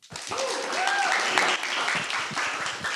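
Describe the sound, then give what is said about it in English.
Audience applause for a speaker who has just been introduced: dense, steady clapping for about three seconds, with a brief cheer rising over it. “Can we give her a hand?”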